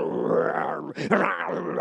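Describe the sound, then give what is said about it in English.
A man's voice imitates an injured sheep-herding wolf dog grunting with each step: a long, low, strained groan, a brief break, then a second rougher grunt. “every time he takes a step, he grunts”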